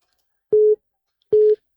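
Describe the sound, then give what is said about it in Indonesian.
Telephone busy tone after a call is suddenly cut off: two short, identical steady beeps at a mid pitch, separated by a brief silence, clear and alone. “Tiba-tiba terputus ya. Bisa dicoba lagi di line telepon ini ya.”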